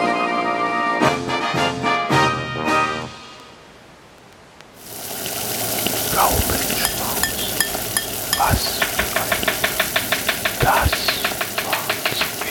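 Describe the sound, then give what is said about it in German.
Onions being chopped with a knife, a quick, steady series of many sharp knocks on a board, preceded by a short burst of music. “Ich bereite gerade vor. Ich habe gerade schneide gerade Zwiebeln.”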